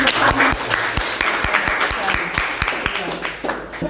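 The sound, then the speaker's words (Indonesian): Audience applause at a gathering about press certification in Indonesia, a dense wash of clapping with sharp individual claps standing out. A voice talks over it. “Kita kasih aplaus lagi dong.”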